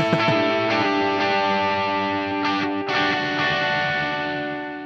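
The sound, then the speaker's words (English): Distorted electric guitar from a Telecaster bridge pickup through a Plexi amp model: a loud, bright chord rings on with a few picked notes over it, its sustain slowly fading. “it's a Telecaster nonetheless. Just in the bridge position. This sounds ridiculous. So this is the Plexi. This is its Plexi model.”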